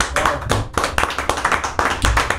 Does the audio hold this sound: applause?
yes